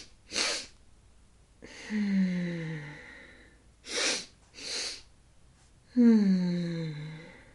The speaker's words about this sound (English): So that's the breath work that can calm the nervous system down. Two quick inhale and then with this long, slow exhale.